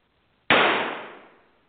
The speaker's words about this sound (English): That gunshot barely missed Max, but it knocked Marjorie's gibberish-filled Fires of Desire manuscript right out of his shaky hand.